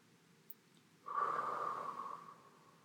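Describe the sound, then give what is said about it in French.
A single slow, deep breath drawn in through the nose, soft and airy, swelling for over a second before fading. A tiny click comes just before it, and the background is otherwise quiet. “Commencez par vous concentrer sur votre respiration en inspirant lentement et profondément 3 fois. Inspiration.”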